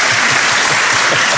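Audience applause at a comedy show, a loud, dense patter of many hands clapping steadily through the short moment.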